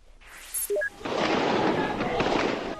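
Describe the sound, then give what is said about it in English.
Gunfire from troops in Beijing during the Tiananmen Square protests: a few short tones, then a sustained, dense burst of loud crackling noise that continues to the end. “Troops have been firing indiscriminately, but still, there are thousands of people on the streets who will not move back. After hours of shooting and facing a line of troops,”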